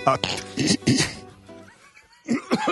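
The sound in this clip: Coughing and throat clearing from someone with something caught in the throat: a few rough, breathy bursts mixed with voiced sounds, a quieter stretch in the middle, then two more bursts near the end.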